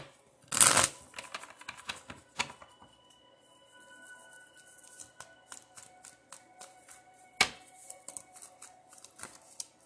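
A tarot deck is handled and a card drawn from it, giving crisp papery flicks and riffles. A few sharp louder snaps stand out among many lighter ticks and rustles, with no talking.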